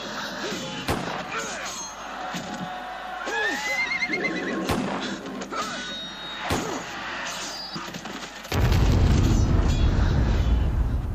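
Horses whinny and snort amid gunfire as Spanish soldiers open fire on an unarmed Inca crowd in a town square. A few sharp, loud bangs cut through the neighing before a heavy, sustained roar takes over.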